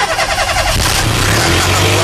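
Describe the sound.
Car engine cranking and starting under the bonnet, a loud, dense mechanical rumble that pulses rhythmically at first, then settles into a steady low drone with a held low hum, no voices.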